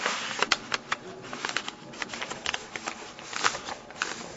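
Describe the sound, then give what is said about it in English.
Paper is folded accordion fashion, creasing back and forth into a strip for writing lines. It gives many soft, irregular crinkles and rustles, fairly faint, with no talk. “Right, accordion fashion. So the second line would be written, the first line is written here, the second line would be written down here. They would fold that down.”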